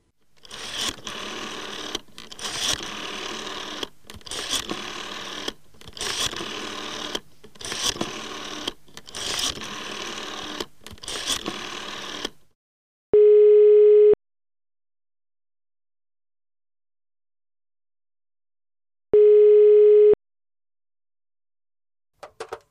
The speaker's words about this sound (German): Ich werde jetzt also einfach eine random Telefonnummer wählen, ja, hier mit meinem Handy und werde quasi irgendjemanden in Deutschland anrufen